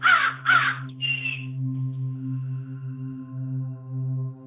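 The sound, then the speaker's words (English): Crows calling outdoors give three harsh caws in quick succession. Once the caws stop, a steady low hum carries on alone. “You can hear the crows calling away in the background.”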